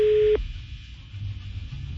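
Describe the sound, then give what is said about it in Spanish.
A telephone tone sounds on an unanswered call: a single steady, mid-pitched tone that cuts off abruptly, leaving a faint low hum. “No contesta. Se llama Rosy la señora, pero no contesta.”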